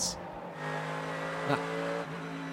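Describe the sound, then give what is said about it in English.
A Winward number 57 Mercedes AMG GTD race car entering pit lane at Petit Le Mans: a steady, droning engine note with a tonal whine, and a brief louder burst midway. “Into the pit lane for the Winward number 57 Mercedes AMG from GTD”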